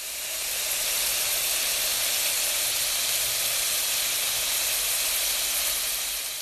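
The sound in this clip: Oil and food sizzling in a frying pan while cooking, a continuous, even hiss that stays steady and fairly loud throughout, with no talking.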